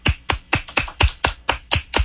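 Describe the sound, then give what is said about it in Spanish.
Welcome clapping: nine sharp, evenly spaced hand claps in a quick, steady rhythm, heard alone without talk. “Me estaba dando el aplauso de bienvenida.”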